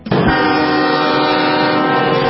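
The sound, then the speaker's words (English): A train horn sounds from a special funeral train in small-town Texas, a single loud, sustained blast with a rich, steady chord that holds unbroken from start to end. “The special train continues carrying George H.W. Bush. People have been gathering by the thousands in small Texas towns to get a glimpse of the train.”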